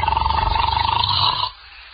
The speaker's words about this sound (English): must you start snoring as soon as you close your eyes?